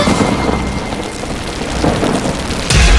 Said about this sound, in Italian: Senti come viene giù. Piove. Senti come piove. Madonna come piove.